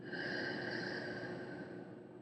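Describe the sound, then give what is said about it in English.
A single long, steady breath drawn through the nose and let out through the mouth during a guided relaxation, an even airy rush lasting about two seconds over soft sustained tones. “Now, take a long and deep breath in through your nose and out through your mouth.”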